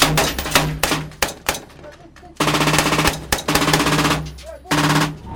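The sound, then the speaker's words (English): Rounds of rapid gunfire strike an armoured vehicle in several loud, rattling bursts of sharp cracks, broken by brief pauses, with the longest sustained volleys in the second half. “Rounds hit the armoured vehicle.”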